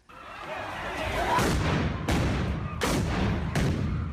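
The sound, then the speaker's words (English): Stun grenades fired by police at people destroying municipal property in a South African city go off as a few sharp, heavy booms over a constant loud rumbling background. “Police fire stun grenades at people destroying municipal property in the city of Tshwane.”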